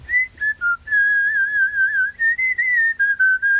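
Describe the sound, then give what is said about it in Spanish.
A person whistles a melody, clear high notes in several short phrases separated by brief gaps, the pitch wavering gently and stepping up and down, with no other sounds. “el silbido, porque así es como voy componiendo mientras ando en bici, mientras hago cualquier otra cosa”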